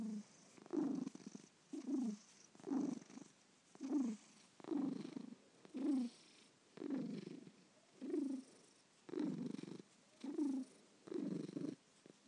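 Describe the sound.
Cat purring, faint and soft, in a steady rhythm of many low rumbling pulses, each breath cycle swelling and fading in turn without any talk over it.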